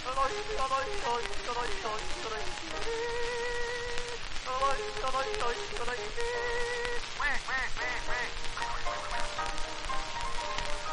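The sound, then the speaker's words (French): Singing voices imitate duck quacking in a French song, repeating short nasal syllables in a steady, bouncy rhythm over accompanying music. “Coin, coin, coin, coin, quand c'est des canards qui rejoignent.”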